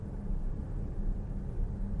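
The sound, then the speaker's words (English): A Porsche driving on the road at 75 mph gives a steady, low road-and-engine rumble that stays even throughout, with no talking. “Now, the driving. Does it feel like a Porsche on the road? Undoubtedly, yes. I'm driving at 75 miles an hour at the moment”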